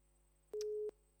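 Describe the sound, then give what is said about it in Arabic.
A single steady electronic tone signals a disconnected phone call. One clear mid-pitched beep about a third of a second long sounds over a faint background hum. “فصلت المكالمة، تمام.”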